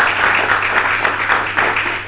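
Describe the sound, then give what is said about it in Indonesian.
Steady applause from an audience at a history discussion rewards two speakers, with dense, even clapping throughout. “Teman-teman, tepuk tangan dulu untuk dua pembicara ke depan.”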